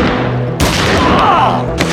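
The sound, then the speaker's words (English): Two pistol shots from a pair of Detonics Scoremaster handguns, each fired once. Two sharp bangs land about a second apart over continuous loud, rumbling noise. “The Detonic Scoremasters bucked once each in his hands as Rourke wheeled toward the barricade.”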